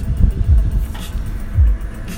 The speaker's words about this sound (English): I'm once again sitting in the car, and you can probably hear it in the background